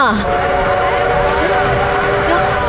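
A train pulls into a station with a loud, steady rumble, high whistle-like tones and squealing lines running through it for the whole stretch.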